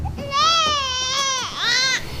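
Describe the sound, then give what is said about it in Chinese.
A baby cries in a strained, high-pitched wail: one long sustained cry, then a brief break and a shorter second cry. “你别哭了”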